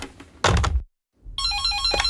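A thud and a short silence come first, then a telephone rings with an electronic ringtone of stepped, warbling tones that continues to the end.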